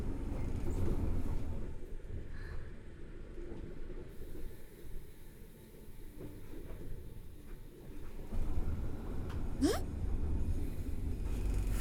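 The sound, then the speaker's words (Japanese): An oncoming train pulls into a passing loop, a loud steady rumble filling the whole stretch, with a brief high squeal rising sharply near the end. “この先、向こうから来る電車と待ち合わせしますよ。”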